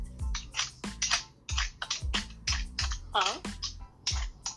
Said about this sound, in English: what are you doing? Peeling yams. I have to prep the day before.